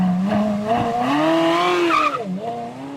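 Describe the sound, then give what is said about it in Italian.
Ferrari engine roar: a loud, sustained tonal howl whose pitch climbs, dips briefly near the end, then rises again, with no voices over it. “Sai cos'era questo? Questo è il rombo di un motore Ferrari, per essere chiari.”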